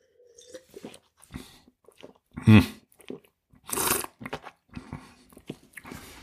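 A sip of old-vine wine is tasted: a short, wet slurp, then a longer airy hiss as air is drawn through the mouthful, with small mouth clicks and smacks before and after.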